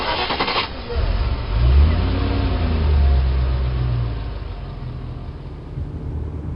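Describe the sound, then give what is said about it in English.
A vehicle takes off quickly, its engine revving up into a mid-pitched drone that swells, briefly eases, then holds a steady, fairly loud run before thinning out. “I felt myself getting placed inside of some kind of vehicle, which took off rather quickly.”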